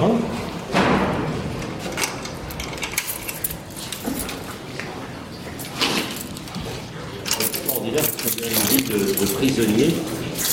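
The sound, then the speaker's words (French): A gate being unlocked and swung open: irregular metallic clanks, rattles and scraping slides mixed with a few dull thuds, loud and uneven over the whole stretch, with low voices murmuring at times. “Est-ce qu'on peut ouvrir la grille? Oui.”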